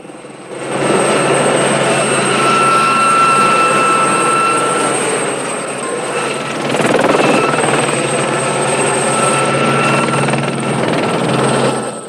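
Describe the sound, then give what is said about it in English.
A helicopter flies over rocky terrain near a dirt track, rock tunnels and a wide stretch of water. Its loud, continuous rotor and engine drone carries a steady whine and dips briefly midway. “The helicopter has to negotiate the rocky terrain.”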